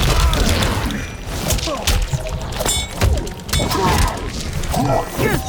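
Hits land in an online fighting video game as a combo starts at the opening of a round. Many sharp thwacks, thuds and thunks crowd together over busy game audio, with vocal sounds in places.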